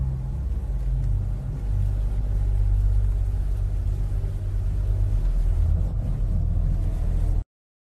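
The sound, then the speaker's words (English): A car driving along, heard as a steady, fairly loud low engine and road rumble that stays continuous with no voices, then cuts off abruptly just before the end. “we're driving through the states in the Bluff Mobile”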